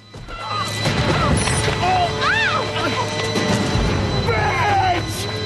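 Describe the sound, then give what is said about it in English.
A thudding kick and a crashing fall onto rocky ground in an audio drama scene, the impacts sounding under steady narration from a voice speaking throughout. “Kavanagh reaches ground level. Then turns round and kicks Ray between the legs.”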